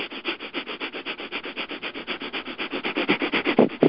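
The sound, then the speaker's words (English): Rapid breathing in and out through the nose, driven by pumping the abdomen, gives many quick, evenly spaced rushes of air in a steady rhythm that grows louder toward the end. “So you can probably hear that. In and out at a quick pace, and each time I'm pulling in, I'm extending the abdomen out, and then when I am letting out, the abdomen goes back in”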